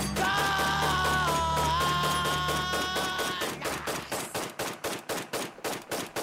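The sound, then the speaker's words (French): Machine-gun fire rattles out as a rapid, regular string of loud bursts, following a stretch of sustained tonal music. “Allez, on te laisse tirer un peu à la mitrailleuse, fais comme si je n'étais pas là.”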